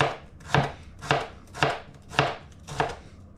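A knife cuts through a tarte flambée on a board with five crisp, evenly spaced chopping strikes, each a sharp thud with a short scrape. It is fairly loud and heard alone.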